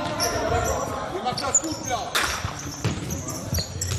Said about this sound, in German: Man spürt es auch direkt, wenn man den Futsalball in der Hand hat. Also wenn man den einfach fallen lässt, da ist ein anderer Klang und er ist sofort tot.